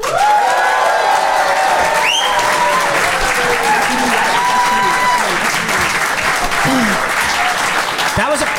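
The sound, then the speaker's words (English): Audience applause and an ovation at a live show where the crowd votes by clapping: dense, loud, continuous clapping with cheers and whoops mixed in throughout. “That was a pretty big ovation there. That was a pretty big ovation.”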